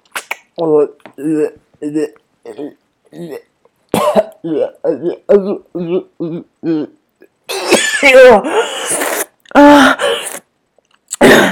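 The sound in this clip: A woman gags and coughs as something is thrust deep into her mouth. A long run of short voiced moans gives way to several harsh, noisy choking bursts near the end.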